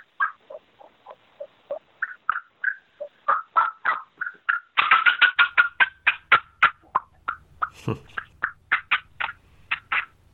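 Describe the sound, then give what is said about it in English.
Deep turkey cutting and fly-down calling blown on a blue cutter mouth call: many sharp, choppy clucks in an uneven rhythm, growing louder and denser midway before thinning out again. “And then for my deeper call, cutting, fly down, I love to use Billy's new blue cutter, and it sounds like this.”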